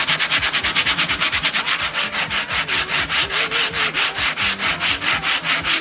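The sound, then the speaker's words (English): A whole nutmeg is grated fresh on a rasp-like grater for cake batter, making many quick, even, scratchy strokes in a steady back-and-forth rhythm that stays loud and uniform throughout. “we grate the nutmeg fresh right before it goes in the batter. Ooh. It comes in the nut form, and you actually, it's almost like using a rasp when you're using a wood product. What it sounds like.”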